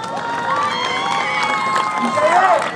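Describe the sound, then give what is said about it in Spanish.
An audience of students and teachers at a rally for a teachers' college applauds and cheers. Steady, loud clapping runs under shouts and whoops that swell toward the end. “Vamos a recibirla con un fuerte aplauso.”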